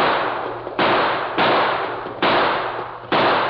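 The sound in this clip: Gunshots fire in a rapid series of sharp, loud cracks. Each blast leaves a decaying tail before the next one comes, at uneven intervals.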